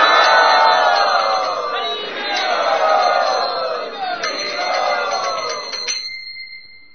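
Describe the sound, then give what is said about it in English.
A crowd loudly chants the holy name to welcome arriving guests. Many voices join in a sustained sing-song chant with ringing bell-like tones, and the sound fades toward the end. “Let us welcome them by loudly chanting the holy name.”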